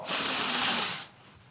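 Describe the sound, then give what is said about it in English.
A group of people exhale together in unison: one broad, breathy rush that lasts about a second and then drops away to near silence. “So everyone breathe in. Everyone breathe out.”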